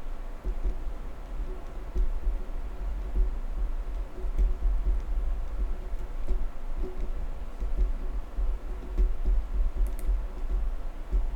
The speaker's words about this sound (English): I'm just writing down here.